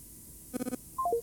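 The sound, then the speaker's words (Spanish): Telephone keypad tones after a cut-off call: four quick dialing beeps, then three short tones stepping down in pitch, faint and alone. “Se cortó. Vamos de vuelta. Se interrumpió la llamada, qué lástima. Bueno, vamos a intentar nuevamente.”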